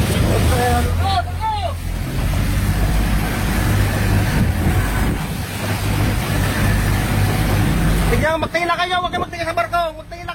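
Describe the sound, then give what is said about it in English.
Roaring engine and wind noise from a Philippine Coast Guard boat approaching a burning ferry near Coron in strong winds: a loud, steady rumble throughout, with people talking over it, clearest near the end. “Here's the sound of the Coast Guard approaching the burning ship.”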